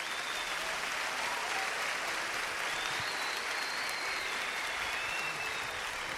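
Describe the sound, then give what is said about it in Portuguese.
Applause from a church audience during a Catholic sermon, a dense, steady patter of many clapping hands that holds at an even level throughout, with no voices standing out. “é por isso que você precisa, por exemplo, pode aplaudir.”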